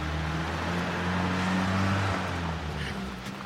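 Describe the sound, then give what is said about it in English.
A car reverses and pulls away with a steady engine hum and broad road noise. The sound swells slightly midway and eases toward the end. “The woman pulls away in reverse in their vehicle.”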